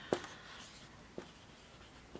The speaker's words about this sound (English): I'm not a teacher, so you can tell I never learned chalkboard writing 101.